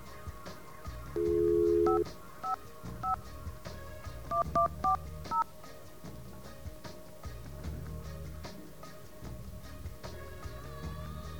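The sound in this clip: Touch-tone dialing on an office PBX telephone line: a short steady dial tone, then several brief beeping key tones in an uneven run, followed by quiet line noise.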